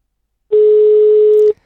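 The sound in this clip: A telephone line tone as a call is placed: one flat, steady beep lasting about a second, loud and alone, then silence.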